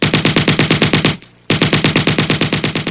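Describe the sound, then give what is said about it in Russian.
A tripod-mounted machine gun fires inside a workshop: a rapid, loud, booming burst, a brief pause, then a second long, continuous burst of evenly paced rounds. “Резкий и гулкий треск длиннющей очереди поставил точку всем тихим перешептываниям и разговорам.”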